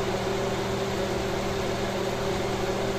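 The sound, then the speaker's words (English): A gas stove burner turned up a little gives a steady, even hiss of flame with a low hum beneath, holding constant throughout without change. “I just turned up the flame just a little bit. I'm using a gas stove, for those of you who don't know.”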